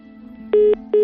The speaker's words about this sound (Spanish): Colgó el teléfono, Julián